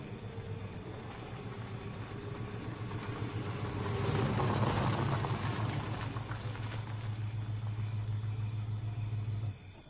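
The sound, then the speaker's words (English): A car drives round to the back of a salon and parks. Its steady engine drone swells in the middle, settles, then cuts off abruptly at the end. “Anderson drives round to the back of the salon, quietly parks his car, and turns off the lights.”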